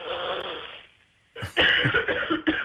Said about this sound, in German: Da muss man mal husten.